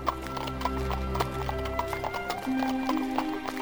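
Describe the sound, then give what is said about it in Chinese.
Horse hooves clip-clop steadily as a rented horse-drawn carriage travels out of Rome toward Vienna, in a brisk, even trotting rhythm of many hoofbeats. “接着他又租了一辆马车，带着五百万离开了罗马，到维也纳去。”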